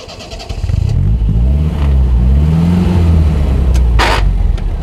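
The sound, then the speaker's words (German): A car engine starts and the car drives off through Paris, revving loudly with its pitch climbing before it settles into a steady, strong drone. “Stephen Buck steigt in seinen Wagen, fährt Richtung Bois de Boulogne.”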